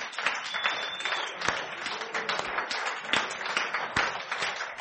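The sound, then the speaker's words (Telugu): A church audience claps its hands during a service, producing a dense, steady stream of overlapping claps that continues throughout. “Shall we stand up? మనం అందరం నిలబడ్డాము ఒకసారి. And clap our hands.”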